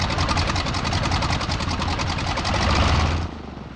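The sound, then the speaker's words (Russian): An aircraft engine runs as a loud, steady, rattling drone that cuts off abruptly near the end, leaving a brief quieter tail. “Севший рядом Титаренко глушит мотор”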